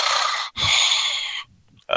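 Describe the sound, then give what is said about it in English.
Heavy breathing right into a microphone: two long, loud, airy exhales with a short gap between, then a quiet stretch before another breath begins. “Sorry if I'm breathing a lot in the mic.”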